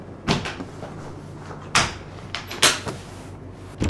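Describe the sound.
A large wheeled travel chest packed with records and a record player is opened, giving a few sharp knocks and wooden thuds separated by quiet gaps, with smaller clicks between the louder hits.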